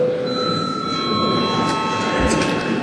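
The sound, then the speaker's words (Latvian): An electric bell rings in a parliament chamber to call a break, giving a steady, continuous metallic ringing that holds at an even loudness for the whole stretch without pausing. “Lūdzu zvanu”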